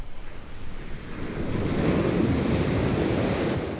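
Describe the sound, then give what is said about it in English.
Waves crash on a seaside beach with a broad, hissing roar. It swells at about one and a half seconds and holds a full, steady surge, with no voices. “I just love the sound of waves crashing on the beach because it just reminds me of being on holiday, being at the seaside, relaxing.”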